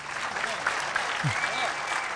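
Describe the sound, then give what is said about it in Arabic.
An audience of young men applauds a security officer with a dense, steady roar of clapping. Voices rise briefly above the applause. “صفقوا رجل الأمن يا شباب”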